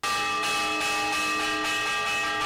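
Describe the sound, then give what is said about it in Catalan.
Church bell peal warning of danger such as a sea storm or a fire, rung insistently: loud, shrill, continuous ringing with strikes repeating about every half second over a sustained metallic hum. “Un repic de campanes insistent i molt estrident que alertava d'un perill, ja fos a causa del temporal de mar o bé d'un incendi.”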